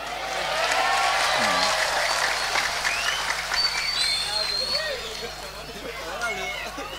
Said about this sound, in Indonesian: Yang tepuk tangan itu karena merasa wajahnya jelek, insya Allah.